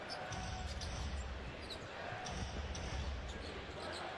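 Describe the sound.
A basketball is dribbled on the court during a game, giving a few low, thudding bounces in a loose rhythm under a constant, fairly quiet background wash.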